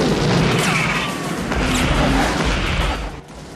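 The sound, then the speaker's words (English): Explosions as rocket-struck trucks blow up and roll over in flames: a loud, continuous roar of blasts and crashing debris that stays heavy throughout and eases slightly near the end. “Tango and Cash fire rockets from the van, hitting some of the trucks behind them. They explode and roll over in flames.”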